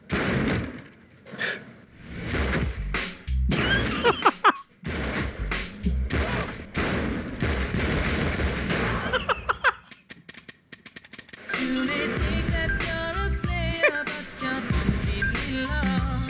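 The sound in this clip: Gunshots burst through a movie trailer: many sharp, loud bangs in irregular clusters, cut between other busy trailer sounds and brief pauses.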